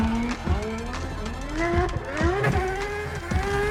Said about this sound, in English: With a rear-wheel drive setup, this McLaren is a master at sliding with complete control.